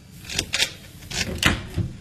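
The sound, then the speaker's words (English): A door being opened, heard as several short, fairly faint clicks and clunks spread across about two seconds. “In the end, I decided to come round and see you, and now you won't even open the door to me.”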